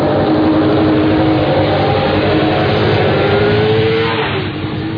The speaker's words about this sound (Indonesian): ada sebuah motor yang tiba-tiba saja ngebut menyusulku